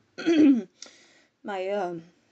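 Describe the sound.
A man's voice acts out clearing his throat: a rough, gravelly rasp, a short catch, then a longer voiced hum, three bursts in all with no other sound.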